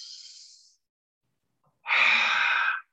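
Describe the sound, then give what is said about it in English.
A forceful exhalation pushing all the air out of the lungs, a loud breathy rush lasting about a second, following a softer hiss and a brief pause. “Last one, and then we're going to force exhale out all the air.”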